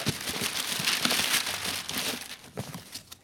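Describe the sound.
Dry crinkling of wrapping paper as a Christmas present is unwrapped, a continuous soft crackly rustle with small irregular peaks, fairly quiet, no voices.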